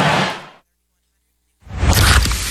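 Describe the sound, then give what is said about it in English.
A can of Pepsi Zero Sugar cola is opened and poured: a hissing fizz fades out, a second of silence follows, then a louder, bright rush of fizzing liquid pours steadily to the end. “You hear that? That's the sound of Pepsi Zero Sugar, the better tasting, more refreshing Zero Sugar Cola. Listen to that endless pour.”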